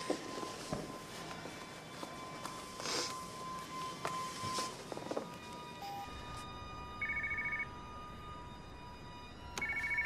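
A telephone rings in two short electronic bursts near the end, after a stretch of shuffling footsteps and clattering handling noises. No one speaks.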